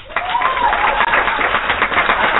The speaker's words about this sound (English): Got the applause on that.